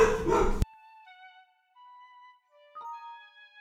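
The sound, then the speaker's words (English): A dog gives high, drawn-out whining and howling tones after a short noisy burst at the start. The tones are faint, held at several steady pitches and broken by brief pauses. “let me see why my dog is barking.”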